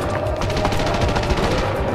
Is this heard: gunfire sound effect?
yes